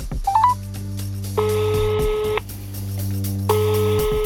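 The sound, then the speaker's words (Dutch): A telephone number is dialed in a quick burst of short rising tones, then the line rings with two long electronic tones separated by a pause, all over a low, steady hum. “Ik ga hem proberen te bellen.”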